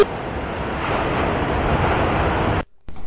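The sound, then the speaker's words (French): Ocean surf arrives in a steady, loud rushing wash mixed with wind noise, cutting out abruptly for a moment near the end before resuming. “il ne voit pas la vague arriver”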